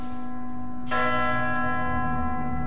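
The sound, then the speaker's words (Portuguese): Church bell tolling, one loud stroke ringing out near the middle above a lingering hum of earlier strikes, its rich overtones sustaining steadily to the end. “As 12 badaladas soaram”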